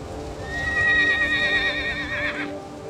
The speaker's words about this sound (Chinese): 黑影越来越清晰，是一匹马，但是有着人的脸。